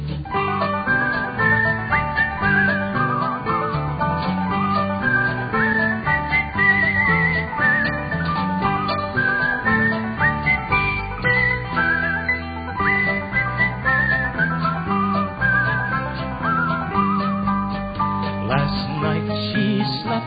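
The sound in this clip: A person whistles a tune in a steady, continuous melody lasting about twenty seconds, with low sustained tones underneath throughout.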